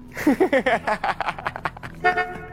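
A car horn sound effect in a quick run of many short, bright toots. Each blast is clipped and tonal, and they come in a rapid, uneven rhythm with a brief gap before a last longer honk.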